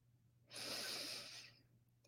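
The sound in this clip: A person breathing deeply, heard as one soft, airy rush of breath lasting about a second, alone and quiet with no talking.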